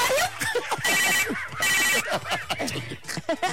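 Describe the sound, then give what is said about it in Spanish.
Telephone bell ringing at a radio station, two bright jangling bursts of ringing close together, with voices talking and reacting around them. “¿Qué fue? Timbre el teléfono, ¿verdad? No sé, ¿qué suena así?”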